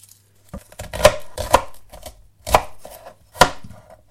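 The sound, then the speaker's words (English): Knife chopping peeled Italian shallots into a few pieces on a board: several crisp, sharp chops land at uneven intervals, some louder than others, with no talk. “I'm going to peel those, and then I'm going to chop them into a few pieces.”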